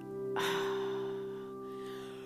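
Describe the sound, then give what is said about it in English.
A person yawning: a breathy, drawn-out intake swells suddenly and lasts about a second before easing into a softer exhale, over a steady low hum. “here we go with the yawning.”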